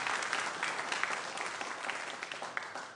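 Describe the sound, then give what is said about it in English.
Applause at a concert as the audience gives another round of clapping, a dense, steady patter of many hands that holds for about three seconds with no talk over it. “All right. Another round of applause for my wonderful wife.”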